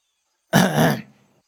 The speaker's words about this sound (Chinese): 就听身后咳嗽声